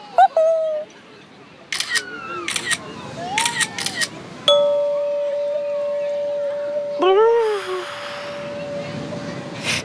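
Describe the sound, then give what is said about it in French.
A camera shutter clicks once as a photo is taken of Toudou in a swimsuit at the beach, a single sharp click followed by a steady held tone, amid other gliding, whistle-like tones. “Ne bouge pas, Toudou. Je vais te prendre en photo.”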